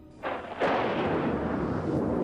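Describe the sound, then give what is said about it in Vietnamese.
A lightning strike cracks into thunder on a dark night. A sharp burst is followed by a louder crack about half a second later, then a sustained, broad, roaring rumble, with no voices. “Một tia sét đâm thẳng xuống chỗ thầy Kha, chiếu sáng cả một vùng trời.”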